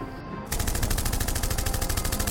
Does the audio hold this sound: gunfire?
yes